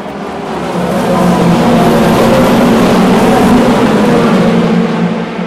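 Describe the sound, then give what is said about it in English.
Racing engines roar as hypercars, LMP2 prototypes and GT cars pass at the start of the 2024 Le Mans 24 Hours. Many engines blend into one loud, sustained roar that swells after the first second and holds steady. “There go the hypercars. Here come the LMP2s. And the GTs.”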